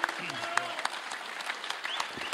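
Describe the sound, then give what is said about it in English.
Audience applause at a ham radio gathering as an honored guest comes up: uneven, scattered clapping with a few sharper claps standing out and people's voices mixed in. “Carol, come right on up, and everybody will give you a round of applause for all you've done for kids and ham radio.”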